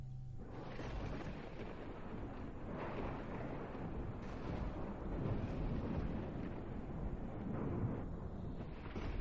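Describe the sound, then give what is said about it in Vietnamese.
Thunder rumbling in the sky during a lightning storm: a deep, continuous roar that holds steady in loudness for the whole stretch, with no single sharp crack standing out. “Tiếng sấm sét trên không trung vang lên đùng đùng, nghe đến rợn cả người.”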